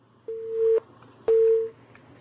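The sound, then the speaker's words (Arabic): Telephone line tone as a caller connects: two identical low-pitched electronic beeps, each about half a second long and separated by a pause of similar length, clear and alone. “معنا اتصال.”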